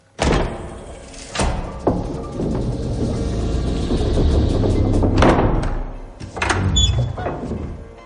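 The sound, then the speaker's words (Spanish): A secret wooden door is tapped and swings open: several heavy thuds and knocks stand out over a low, sustained rumble, with a cluster of sharper clatters near the end. “Holmes da unos golpecitos hasta que finalmente una puerta secreta de madera se abre.”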